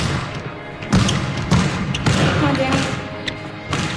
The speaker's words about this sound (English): dribbles the ball at the free throw line. Two free throws.